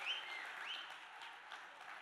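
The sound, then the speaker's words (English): Faint applause from a church audience welcoming guest pastors: soft, even clapping from many hands that continues without a break. “Come on, let's put our hands together. Let's give them a big, warm welcome.”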